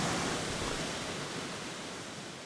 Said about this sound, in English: This is pretty sweet. Yeah, this is an amazing swimming hole, huh?